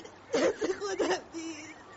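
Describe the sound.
A woman cries in a few short sobbing bursts that end in a drawn-out, wavering whimper.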